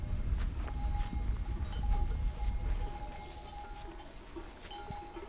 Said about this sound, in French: Donc c'est très paisible. Vous marchez au milieu des brebis, dans l'herbe verte,